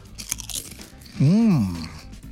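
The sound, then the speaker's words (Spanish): Crunchy grilled-jalapeño flavored food is chewed in noisy, brittle crunches, followed by a brief voiced hum that rises and falls in pitch. “Bueno, discúlpame, pero voy a tener que seguir masticando aquí.”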